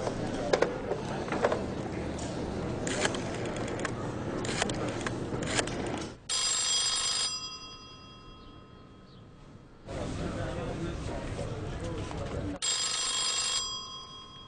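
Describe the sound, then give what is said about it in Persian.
A telephone rings twice in two short, bright bursts with a gap between them, during a call to Tehran. Busy, noisy clatter comes before the first ring. “من اگه اجازه بدین یه زنگ به تهران بزنم.”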